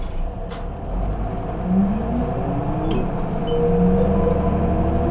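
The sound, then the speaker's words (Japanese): Bus doors close and a city bus pulls away, a brief air hiss near the start over a steady low engine rumble that grows slightly fuller as it moves off. “扉が閉まります。 発車します。お止まりください。 発車いたします”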